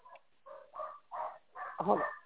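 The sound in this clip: Dogs barking in a quick run of several short, moderately loud barks with brief gaps between them, sounding thin and narrow-band.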